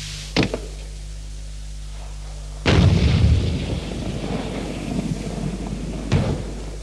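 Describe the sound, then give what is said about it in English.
An M40A1 106mm recoilless rifle fires. One heavy blast is followed by a long rumbling decay, with shorter, sharper reports before and after it. “The M40A1 106mm recoilless rifle.”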